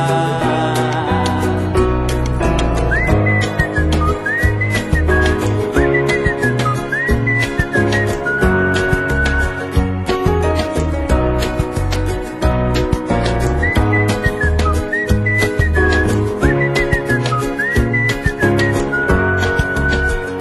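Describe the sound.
A whistled tune carried over a full, upbeat band in a Portuguese-language song, the bright whistling melody repeating in short phrases above steady drums and instruments.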